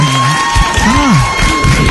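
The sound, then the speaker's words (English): Studio audience on a talk show cheering and applauding as a guest is welcomed: loud whoops and shouts ride over constant clapping for the full stretch. “The audience is very behaved. I know. Our live studio. We got them in just for you. Oh, settle down now. Hush, hush.”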